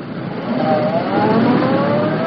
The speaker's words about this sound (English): Reed's got a convertible here. Let's get going. I've always wanted to open this car up in the city with police protection. Hang on, here we go.